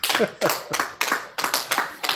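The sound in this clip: Rhythmic clapping from an audience at the close of an evening talk event, about eight sharp bursts in steady succession, with a voice briefly mixed in.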